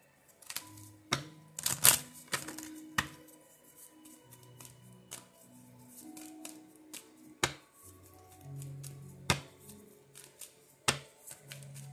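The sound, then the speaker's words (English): Crisp handling of a healing angel oracle card deck while a card is drawn: many sharp, dry taps, flicks and riffles at an uneven rhythm, quiet overall with a few louder snaps. “I'm going to go ahead and pull a healing angel card real quick.”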